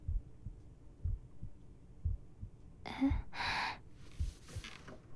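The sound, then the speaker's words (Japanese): A heartbeat heard through the chest: faint, muffled low thumps in a steady, fairly quick rhythm. A couple of breathy gasps cut in midway. “私の胸の音、ちゃんと落ち着いているでしょ？”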